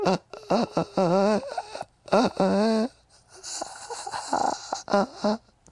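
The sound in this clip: A human voice imitates the horrible wheezing breath of someone with a collapsed lung. Several strained, wavering rasps come in separate bursts with short pauses between them.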